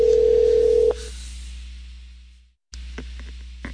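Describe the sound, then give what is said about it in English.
Steady telephone tone on the line after the other party hangs up, loud and level for about a second before cutting off, leaving faint line hiss that fades out, a short dead gap, then the hiss returning. “Okay, she hung up.”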